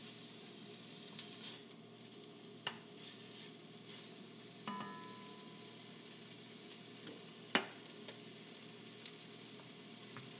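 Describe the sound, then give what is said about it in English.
Salt pork sizzling in a pan: a faint, steady frying hiss broken by a few small pops and crackles. “So, I'm gonna let the salt pork get started here.”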